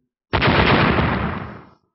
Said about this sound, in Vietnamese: Một hồi nổ mạnh